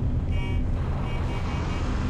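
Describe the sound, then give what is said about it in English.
Engine of the Warthog vehicle driving in a video game, a steady low rumbling drone with road-like noise, continuous and moderately loud with no talk over it. “You drive the Warthog. I got a Warthog.”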